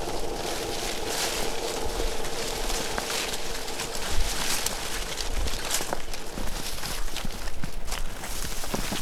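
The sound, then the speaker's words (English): Footsteps walking through a slough make a continuous wet, rustling squelch at a steady level, with no clearly separate steps. “So that's pretty characteristic noise, is walking through the slough.”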